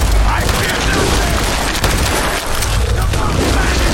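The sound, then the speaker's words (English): A grenade explosion and gunfire in a video game, with cultists shooting near a giant mire lurk, form a loud, continuous wall of booming blasts and rapid shots with no quiet gaps. “Ah, there's a grenade. Listen, I'm here also. You can't blow me up. That's no good. Ouch. Cultists. The cultists are shooting at it too.”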